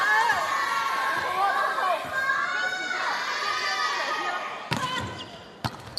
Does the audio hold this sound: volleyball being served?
yes

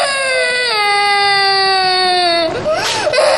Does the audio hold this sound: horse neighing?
no

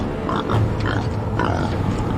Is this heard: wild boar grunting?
yes

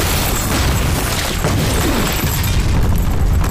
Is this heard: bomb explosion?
yes

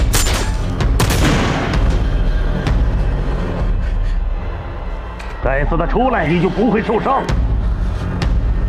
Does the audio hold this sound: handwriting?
no

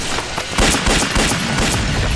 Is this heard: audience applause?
no

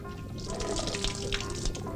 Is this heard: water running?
yes

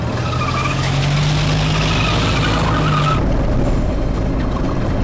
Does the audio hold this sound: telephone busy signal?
no

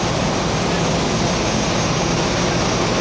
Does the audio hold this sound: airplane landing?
yes

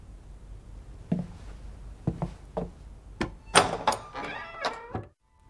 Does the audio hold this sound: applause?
no

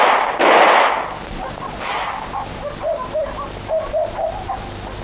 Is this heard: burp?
no

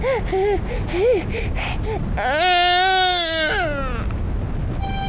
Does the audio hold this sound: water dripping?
no

